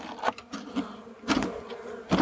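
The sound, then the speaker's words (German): Bees buzz as a handful is poured into a hive box. A steady insect drone runs throughout, broken by a few brief rustling bursts. “So, jetzt geht es noch darum, diese Handvoll Bienen rüber zu schütten.”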